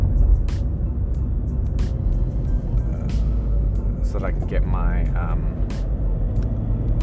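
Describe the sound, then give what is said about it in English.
Steady low engine and road rumble from a car being driven, continuous and even in level for the whole stretch, with a voice heard over it. “this is Driving with Seed Beats W, so I am actually driving right now”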